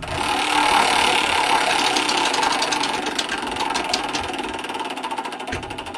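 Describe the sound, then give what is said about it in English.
A game show prize wheel spins with rapid, dense ratcheting clicks over a mechanical whir, holding at a steady loudness for about six seconds. “or we'll spin the wheel and find out exactly what this game has”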